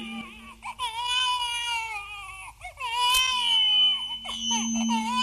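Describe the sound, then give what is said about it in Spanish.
Baby crying in repeated high-pitched wails, several cries separated by brief catches of breath, rising and falling in strength, with a faint steady tone underneath. “Y en exclusivo de la número uno, a ver, ¿qué dice el bebé? ¿Qué dice el niño ahí?”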